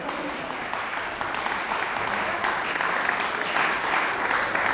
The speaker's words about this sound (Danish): Nu er det ikke mig, det skal spille. I må vente lidt med applauserne.